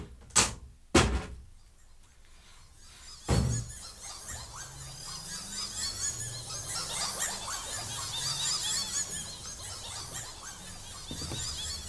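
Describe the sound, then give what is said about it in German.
A window being opened, beginning with three sharp knocks or clicks, then a long, wavering creaking squeal that carries on at moderate level to the end. “Nur das Fenster muss ich noch öffnen.”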